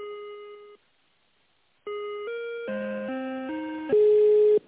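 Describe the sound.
Electronic telephone tones play while an office call is transferred: one steady beep, a pause of about a second, then a run of stepped tones at changing pitches, ending on a louder held tone.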